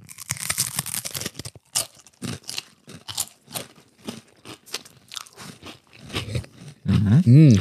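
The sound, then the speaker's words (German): Several people bite into and chew a cured ham-like snack at the same time. Many crisp, irregular crunches and chewing sounds follow one another, and a short voiced sound comes at the end. “dann jetzt beißen wir mal feierlich rein.”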